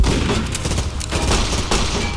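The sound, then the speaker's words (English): A beefed-up army robot in an audio drama fires lasers in loud, dense, rapid volleys of crackling blasts that overlap without pause. “Oh shit, that thing's already got its laser going again. Take cover behind those wall panels.”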